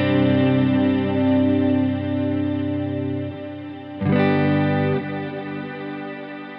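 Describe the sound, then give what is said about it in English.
Electric guitar played through a Strymon pedal in 2496 mode while the tone knob is adjusted: sustained chords ring with chorus-like echoing effects, and a few fresh strums shift the brightness of the tone. “So here's the tone knob. We'll and I'll go back to 2496 to demonstrate that.”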